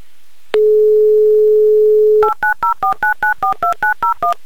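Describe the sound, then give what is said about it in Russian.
Telephone number being dialed: a steady single tone sounds for nearly two seconds, then a quick, even run of many short two-note keypad beeps follows. “Ладно, все, я набираю ваш номер.”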